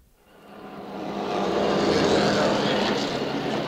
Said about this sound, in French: Les deux Ferrari sont toujours en tête.